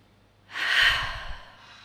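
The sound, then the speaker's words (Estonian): A single breath taken as part of a calming exercise of inhaling through the nose and exhaling through the mouth. An airy rush swells about halfway through, then fades gently over roughly a second. “aga me tahame nagu, nagu, nagu jagada või siis nagu ütleme seda natukene nagu äh, õnnetunnet ka enda ümber, siis on nina kaudu sisse ja suu kaudu välja on niimoodi.”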